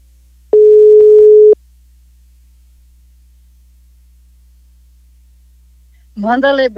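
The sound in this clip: A single telephone ringback tone sounds on an outgoing call, one steady, even note lasting about a second. Silence follows, and then a voice begins speaking at the very end.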